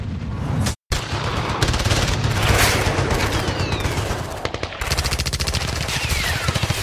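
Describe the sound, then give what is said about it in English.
Gunfire in a mountain battle of the Kargil War, with tracer bullets whizzing past: loud, dense rapid bursts of automatic fire run almost continuously, broken by a couple of brief dropouts, with sharp whizzing passes cutting through the rattling shots. “Tracer bullets whizzed past, the sound of a sharp crack of whip”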